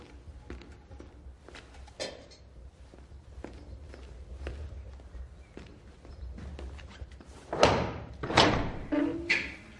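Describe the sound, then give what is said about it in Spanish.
Footsteps of a jailer walking through castle dungeon corridors: many measured, evenly paced steps, soft and fairly faint, followed near the end by a few heavier, louder thuds. “Un carcelero camina por los pasillos de los calabozos de un castillo.”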